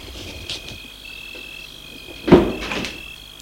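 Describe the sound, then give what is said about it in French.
A door latch clicking open, one sharp click followed by a softer rattle, over a faint, steady high hum. “Elle entend le déclic de la porte.”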